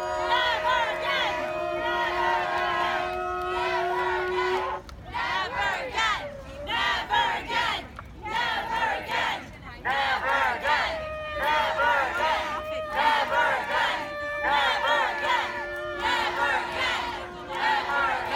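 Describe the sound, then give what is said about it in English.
Activists at a largely Jewish protest in New Jersey against an immigrant detention center chant "Never Again." The loud, sung call is repeated in rhythm, with brief breaks between phrases. “Those are the voices of activists chanting Never Again at a protest in New Jersey aimed at shutting down an immigrant detention center.”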